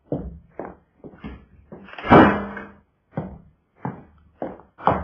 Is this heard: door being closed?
yes

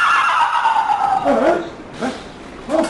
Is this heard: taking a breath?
no

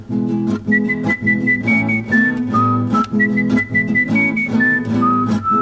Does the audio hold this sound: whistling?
yes

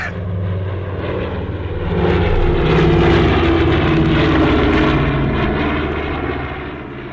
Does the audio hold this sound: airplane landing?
yes

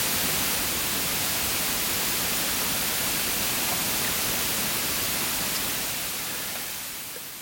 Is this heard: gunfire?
no

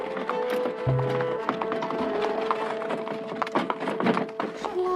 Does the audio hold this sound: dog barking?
no

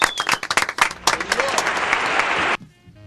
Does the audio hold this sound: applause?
yes

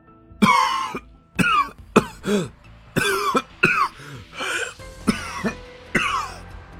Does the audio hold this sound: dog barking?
no

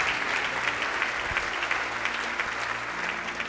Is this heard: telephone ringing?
no

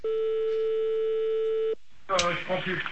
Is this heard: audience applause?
no

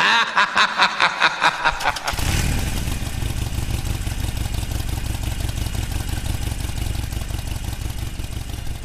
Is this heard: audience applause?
no

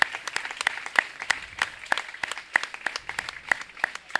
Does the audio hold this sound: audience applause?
yes

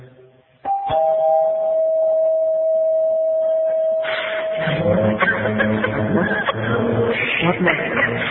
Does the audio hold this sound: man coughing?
no

